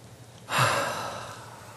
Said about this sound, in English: Take a deep breath in. And let it out. You guys were really good at that. I think we need to do that again. One more time. Breathe in.